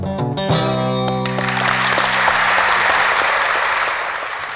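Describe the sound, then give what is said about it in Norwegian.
Audience applause after a live acoustic blues song, with the last guitar chord ringing out as dense clapping rises, holds steady and then starts to thin. “velfortjent applaus”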